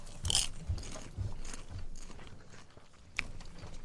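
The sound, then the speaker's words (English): Crunchy chewing of Orville Redenbacher popcorn, a few faint bites and munches spread across the moment, with no talking. “Okay, let's try Orville Redenbacher.”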